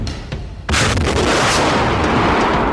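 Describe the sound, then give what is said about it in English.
A rocket fires from a CET vehicle, carrying a 100-pound anchor into a near-vertical riverbank. It comes as one abrupt, loud blast that flows straight into a sustained, roaring rush of noise. “It fires a rocket carrying a 100-pound anchor which blasts into the bank and allows the CET to pull itself out using an 8-ton straight-pull winch.”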